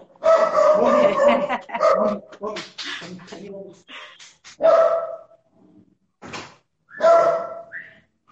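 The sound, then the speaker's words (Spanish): A small female dog barks a few sharp times at home, breaking into ongoing conversation; the barks are brief and mixed in with the talking. “un segundo, ladra mi perrita”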